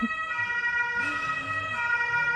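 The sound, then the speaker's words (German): A siren sounds as a steady, sustained wail with a slight rise and fall in pitch midway. It stays fairly faint and even throughout, with no voices. “Dann warten wir hier nochmal die Sirene ab”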